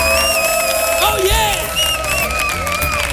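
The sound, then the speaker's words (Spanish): A live audience in an auditorium cheering and whooping loudly, with overlapping shouted voices and an excited exclamation, sustained throughout. “para nuestro público que suena así de fuerte su aplauso”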